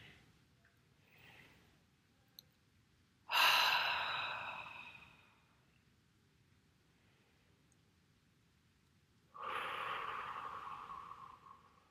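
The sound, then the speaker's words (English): A deep breath comes as two long, breathy rushes of air. Each starts suddenly and strongly, then gradually fades, with a quiet pause between them. “Okay, nice deep breath here.”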